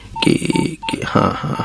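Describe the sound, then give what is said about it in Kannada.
Ringing tone of an outgoing phone call: a few short, steady electronic beeps at one even pitch, separated by brief gaps, over a busier, murmuring background. “ಹಾ, ring ಮಾಡ್ತೀನಿ. ಹಾ, ring ಆಗಾಕತ್ತದ.”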